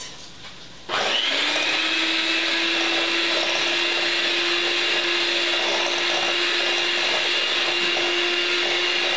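An electric mixer on speed 5 blends brown sugar. It switches on abruptly after a moment of quiet, then keeps up a constant, loud whirring hum with a steady tone that does not change to the end.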